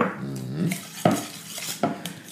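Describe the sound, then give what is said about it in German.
Grated parmesan being mixed into a quiche filling in a bowl: soft stirring and scraping, with a few sharp clinks of a utensil against the bowl. “So, das vermische ich schon mal ein bisschen. Sehr schön. So, dann kommen 50 Gramm Parmigiano, gerieben da rein.”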